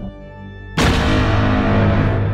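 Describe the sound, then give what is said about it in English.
Heavy gunfire bursts in suddenly after a low steady hum and continues as a loud, dense roar of shots to the end. “Open fire.”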